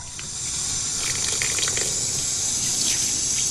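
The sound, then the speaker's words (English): Water gushing from a running tap as washing is rinsed beneath it, a bright steady rush that builds over the first half second and then pours on continuously with light splashing variations. “rinses her washing under the tap”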